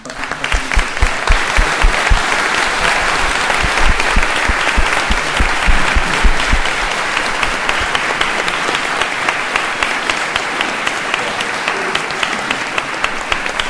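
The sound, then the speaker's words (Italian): Long, sustained audience applause for a comics author at the close of his final event on the continent, dense clapping that stays steady throughout and eases slightly in the second half. “sentite il lunghissimo applauso”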